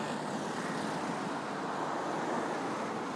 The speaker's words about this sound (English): All of a sudden it seems that there's a vast amount of traffic.